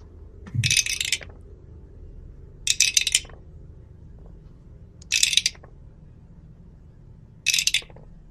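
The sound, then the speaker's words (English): Dice rolled four separate times, each a short, bright rattling clatter, with quiet gaps and a low hum between the throws. “oh gosh, that was a lot of dice and a bad face.”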